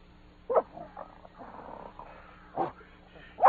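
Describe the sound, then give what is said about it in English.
A dog on a leather leash gives a few short, low snuffling and grunting bursts, fairly quiet, separated by soft rustling. “so I'll just take the liberty of fastening this leather leash to your collar. Now, boy, come along and show what you can do.”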